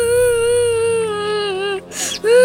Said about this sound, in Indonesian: Nak, kenapa kau menangis?